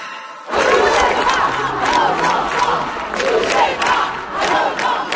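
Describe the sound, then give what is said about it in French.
Crowd of demonstrators at protests in France, a loud, continuous mass of shouting voices that swells in waves after a brief quieter opening. “ce que vous entendez, ce sont les manifestations des derniers jours en France. Des dizaines de milliers de Français qui ont participé à des manifestations à travers le pays”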